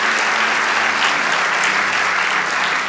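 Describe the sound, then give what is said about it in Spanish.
Crowd applause at a church sermon: a dense, steady wash of clapping that fills the whole clip at an even level, with no voices over it. “Vamos, dale ese aplauso al Rey de Dios.”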